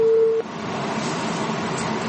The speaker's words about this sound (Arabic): قطع اتصال.